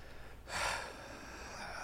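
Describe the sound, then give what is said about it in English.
One quick, sharp intake of breath, faint and airy, that swells and then eases into quieter breathing. “Emphasis on the deep breath.”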